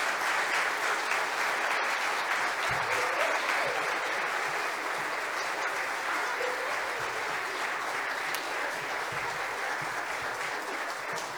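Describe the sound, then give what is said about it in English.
Sustained audience applause at a church service after a tribute performance: steady, dense clapping that holds at an even, fairly loud level for the whole stretch without breaks. “Everybody want to give them one more round of applause?”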